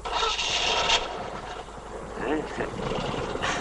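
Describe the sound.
A mechanic tightens a screw on a stalled car, giving a rough rasping and scraping of metal on metal under people talking.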